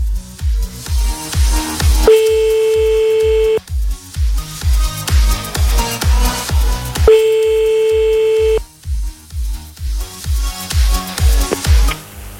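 A French telephone ringback tone plays as a radio show dials a caller: two long, steady, mid-pitched tones about five seconds apart, each lasting about one and a half seconds, over a rhythmic music bed with thumping beats.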